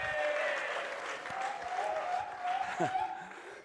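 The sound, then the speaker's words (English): Crowd applause and cheering from the army of Israel hailing its heroes at the front of a battle, a dense, steady wash of clapping and crowd noise that holds at an even loudness throughout. “returned to the front of the battle where the army of Israel cheered for their heroes”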